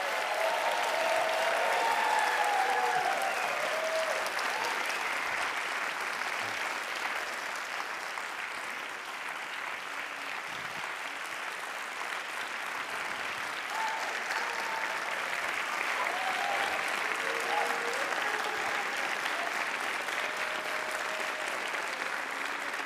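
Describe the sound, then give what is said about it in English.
Audience applause welcoming a guest on stage at a live interview event: long, sustained clapping with scattered whoops and cheers, loudest at first, dipping slightly midway and swelling again later. “Please give a warm, happy, sad, confused welcome to Gary Oldman, everybody.”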